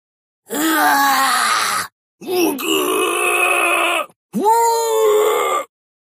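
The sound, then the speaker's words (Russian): Agonized, trembling screams rise from a granite gorge as three long wailing, moaning cries, each over a second long with short gaps between. They are loud and wavering, with no talk over them. “Мученические, дрожащие крики донеслись из ущелья, ледяным эхом отразившись от безразличных гранитных стен.”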